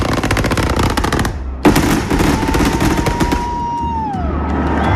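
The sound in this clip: A fireworks show fired line by line from a firing table: dense, rapid crackling bangs in loud volleys with a brief pause, then a whistling tone that slides downward while the crackle continues.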